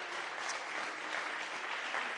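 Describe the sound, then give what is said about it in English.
A church audience clapping their hands together during a worship service, a faint but steady patter of many hands that continues evenly for about two seconds. “Let's clap our hands one more time.”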